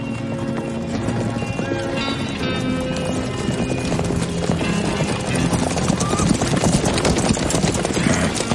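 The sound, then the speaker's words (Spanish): Hooves of several horses galloping along a street in a film scene, a dense, continuous clatter of rapid clip-clop beats that stays loud and steady throughout. “Varios jinetes se acercan galopando por la calle.”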